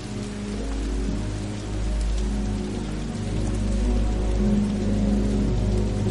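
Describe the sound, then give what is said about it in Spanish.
Rain falling at night on a street, a steady, full hiss of drops on pavement over a low, even rumble that stays constant throughout, with no voices. “Esta noche. Está lloviendo.”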